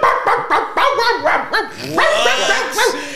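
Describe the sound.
A man imitating a dog makes a rapid, loud run of barks and yips, with strained, repetitive vocal bursts in an uneven rhythm.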